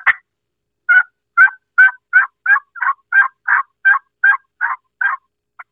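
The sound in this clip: Raspy, whiny turkey hen yelps made with a game call, imitating a huffing hen. A steady run of about fourteen short, even notes follows one opening note, with the final note faint.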